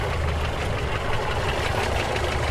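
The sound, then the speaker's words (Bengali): A police jeep engine idling as it parks under the carriage porch of an old house: a steady, even low rumble with a faint rapid pulsing throughout, no voices. “পুরনো আমলের বাড়ির গাড়ি বারান্দায় পুলিশের zip park করে প্রবীর, সুনীল আর শাজাহান”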